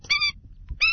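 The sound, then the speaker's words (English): Calls of the endangered Indian skimmer bird: two short, harsh, nasal notes separated by a brief pause, each loud and strident. “that's the sound of the endangered Indian skimmer bird.”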